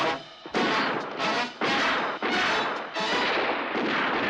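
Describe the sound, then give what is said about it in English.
Heavy gunfire exchanged in a TV action scene: many loud, harsh bursts in rapid succession, each broad and roaring, with only brief dips between them. “he wasn't prepared for return fire from Harry and Paul there.”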